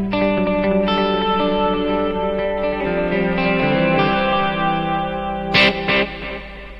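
Clean guitar tone run through reverb and delay effects: sustained notes and chords ring out loudly with a washy, echoing tail. A couple of sharper, brighter strums stand out near the end, with no voices.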